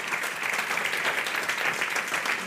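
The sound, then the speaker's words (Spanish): Steady applause from an audience at a tribute honouring a family's gastronomic legacy, a continuous dense patter of clapping that holds level throughout with no voices. “Un aplauso para vosotros y para la familia.”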